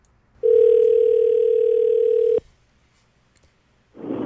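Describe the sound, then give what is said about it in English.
A telephone dial tone as a radio host phones a trivia contest listener: one steady tone of about two seconds, cut off by a click, then a short quiet gap before a voice begins. “Let's give him a call.”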